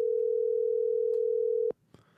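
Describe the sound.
A telephone dial tone sounds while a call back is being placed: a loud, steady single-pitched tone that holds, then cuts off abruptly and is followed by a faint click.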